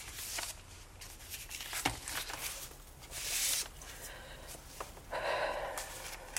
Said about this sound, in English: opens the white A4 envelope. She takes out several pages in Paul's handwriting.